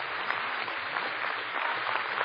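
Audience clapping, a dense, steady patter of many hands, fairly faint and muffled, continuing throughout with no voices on top.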